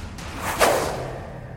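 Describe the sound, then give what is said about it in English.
A single sharp whoosh of a javelin thrown in a video game, a quick swishing rush that peaks and fades within a moment. “And we will throw a javelin from this guy.”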